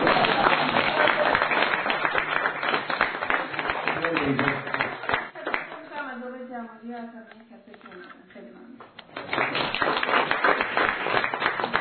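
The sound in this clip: Audience applause for a guest speaker at a talk: dense, loud clapping that thins out midway while voices rise, then swells again strongly toward the end.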